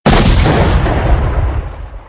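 A hand grenade explodes with one loud, sudden blast that fills the whole range at once and then dies away into a rumbling decay over about two seconds, with no voices.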